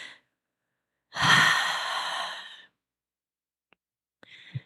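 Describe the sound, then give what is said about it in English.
A group takes a collective deep breath during a singing practice, one long, breathy exhale of about a second and a half, followed by silence and a faint short breath at the end. “Let's take one more collective deep breath together.”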